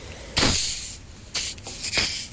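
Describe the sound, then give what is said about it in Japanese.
Hissing bursts as the plastic cap of a Pokka sparkling water bottle is twisted open, a few sharp sprays of escaping gas with fainter scraping between them. “最近このペットボトルの蓋がもう開けづらいというか、ババアだな。”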